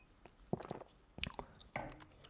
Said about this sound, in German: So, ich muss jetzt noch mal einen Schluck trinken.